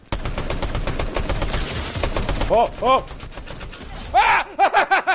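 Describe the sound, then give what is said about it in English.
Rapid automatic gunfire from the Fortnite video game: a long burst of many sharp shots, followed by loud vocal exclamations and groans mixed with a few further shots. “In that moment, I had gotten what I thought was my very first Fortnite kill.”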